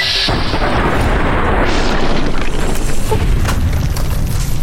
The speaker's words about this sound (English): Grenades away!